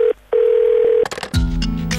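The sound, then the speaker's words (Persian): A telephone being dialled for a call-in: a loud, steady dial tone, broken once by a short gap, gives way to a quick run of short clicking tones, followed by a denser, lower buzzing sound. “مشهد تماس میگیرم.”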